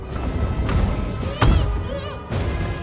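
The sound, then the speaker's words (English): Artillery shell exploding close to a motor launch on the water, a sudden heavy thud with a low rumble rising out of a continuous, noisy, churning background. “A shell lands close to the motor launch, rocking it violently about.”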